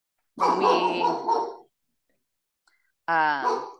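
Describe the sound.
A pet dog barks outside in two loud, drawn-out, harmonic bursts separated by a long silence, the first lasting over a second.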